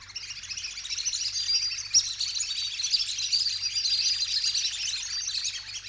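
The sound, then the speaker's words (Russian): Goose chicks peeping in their nests: a dense, continuous chorus of high, thin chirps that stays steady throughout, over a faint low hum, with no talking. “Скоро у гусей в каждом гнезде запищали птенцы.”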